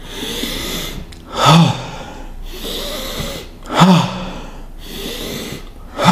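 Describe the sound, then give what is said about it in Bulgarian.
Deep breaths in a guided breathwork exercise, each long inhale giving way to a sharp, forceful exhale. The cycle repeats three times in a slow, steady rhythm, with each exhale the loudest burst. “Дишай дълбоко. Дълбоко вдишване, рязко издишване. Дишай.”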